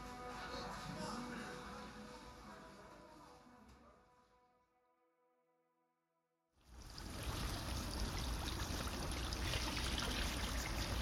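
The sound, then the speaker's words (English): Running water from washing broccoli florets: a loud, steady rush that fades and cuts out for about two seconds, then comes back strongly. “You're going to wash the florets right off, Graham. Put the clean broccoli down.”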